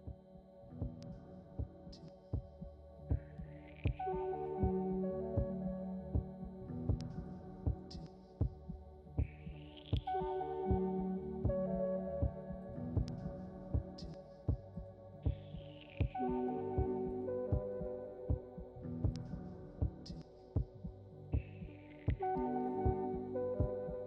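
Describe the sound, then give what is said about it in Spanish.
Heartbeat sound effect, steady throbbing pulses repeating over a low hum, with higher chirping accents recurring at regular intervals throughout, many beats and no talk. “Este es el latido que nos acompaña todos los días en el programa, el latido del cuore.”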